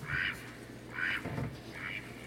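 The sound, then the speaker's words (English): Three nasal quacks from a duck on the water, evenly spaced and fairly faint, each a short raspy call with a soft low murmur between them. “But now there were three, Simon, the fish, and the duck on the water.”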